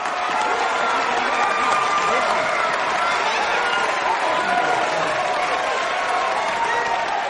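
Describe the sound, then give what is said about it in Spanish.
A seated crowd of young Dauntless members applauds, a steady dense din of clapping mixed with shouting voices that holds level throughout. “Ella va hacia los asientos de osadía que aplauden y le dejan sitio en primera fila.”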